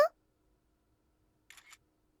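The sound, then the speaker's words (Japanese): A camera shutter fires as a photo is taken: a brief click at the very start, then, after a quiet pause, a short crisp shutter sound in two quick parts. Silence surrounds both. “君のカメラならいいよ。貸して、撮るから。うちカメラにして、と。ほら、撮るよ。”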